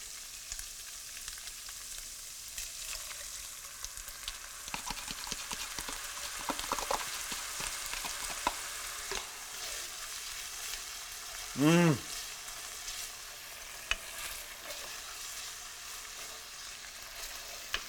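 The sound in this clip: Steady crackling sizzle as sauce hits cooked beef in a pan for an Asian beef rice bowl, stirred throughout, with a brief louder hiss partway through.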